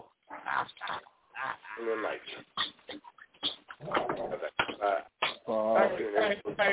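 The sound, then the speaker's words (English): A dog barks wildly, as though someone has come to the door, letting out many sharp, irregular barks and whiny yelps in quick bursts with brief gaps. The sound is loud but thin and somewhat muffled. “Is that your dog?”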